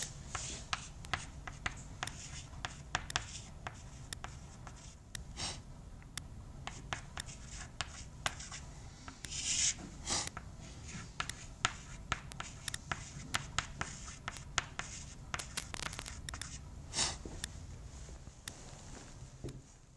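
Faint scratchy writing strokes on a board during a lecture, with many short taps and scrapes in an irregular rhythm and no voices.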